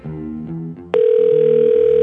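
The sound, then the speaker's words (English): An unanswered telephone call gives a loud, steady electronic tone that starts partway through and holds unbroken to the end, after a stretch of softer tonal sounds. “Oh, well, they're not going to answer the phone ever.”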